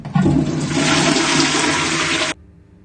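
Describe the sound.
A toilet flush, one loud rushing gush of water lasting about two seconds that cuts off abruptly into near silence.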